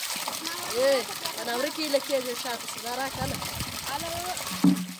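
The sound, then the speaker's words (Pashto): Children's voices and splashing water as children fill water containers at a water borehole. The chatter of several young voices runs over a soft trickle and splash, with a brief louder knock near the end. “دا د هغه ماشومانو غږونه دي چې د اوبو له برمې څخه د اوبو لوښي ډکوي.”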